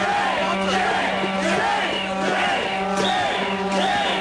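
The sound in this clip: Protest crowd in Madison cheering, yelling and whooping together. It is a continuous, dense roar with rising and falling shouts layered throughout.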